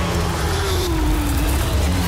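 Porsche Supercup race cars roaring around the Zandvoort circuit in a loud, continuous engine blare, with a lower engine tone sliding slightly downward as the noise carries on.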